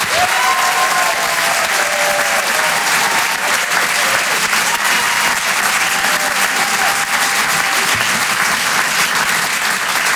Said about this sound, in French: On peut l'encourager, faites du bruit, s'il vous plaît, pour Wari Nichen.